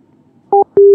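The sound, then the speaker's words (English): Two electronic answering-machine beeps at the start of a phone message: a short, higher two-tone beep, then a slightly longer, lower steady tone, both clean and loud over faint line hiss. “There we go. There's the beep.”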